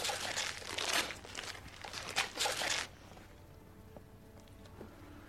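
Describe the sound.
Gift wrapping paper being torn and crumpled open around a CD, a dense burst of crinkling, rustling rips lasting about three seconds before the sound drops away to near quiet.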